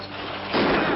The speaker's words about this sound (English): There was a sudden blast of fire from the rocks, and Mitch Williams toppled dead from the box. And then another blast. It sounded like a shotgun.